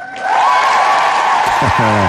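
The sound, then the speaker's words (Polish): Applause welcoming a new correspondent into a listeners' group: a dense, steady wash of clapping that starts after a brief quieter moment and runs on, with a sustained tone beneath it and a voice entering near the end. “No i tak to witamy pana Michała oklaskami w budzikowym gronie.”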